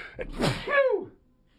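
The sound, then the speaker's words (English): A person's sneeze: one sudden, loud breathy burst followed by a short voiced, falling tail, then quiet. “hold on. That was nice. Just leave that. That was a good sneeze.”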